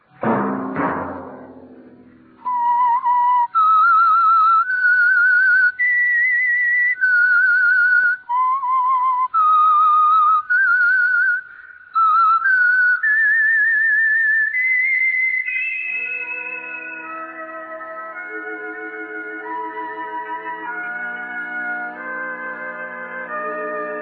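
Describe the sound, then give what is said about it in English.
A clear whistled melody of pure, sustained notes stepping up and down in a slow tune, then giving way to quieter, lower sustained instrumental tones that hold to the end. “Let that whistle be your signal for the Signal Oil program, The Whistler”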